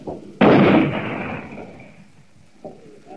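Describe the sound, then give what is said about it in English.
Artillery and mortar fire landing on a hill, including 75 mm guns: one loud, sudden blast with a long rolling decay, followed later by a fainter dull thud. “are now placing artillery, Ricotta 75s, and mortar ammunition or mortar fire on the hill to drive these people out”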